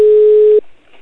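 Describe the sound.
A telephone ringback tone sounds on an outgoing call: one loud, steady, mid-pitched tone holds for about half a second, then cuts off into near silence.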